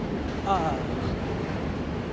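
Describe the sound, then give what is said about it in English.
Steady rumbling roar of a New York subway M train, a continuous low, noisy drone that stays at an even loudness throughout. “Now there, that's the M train.”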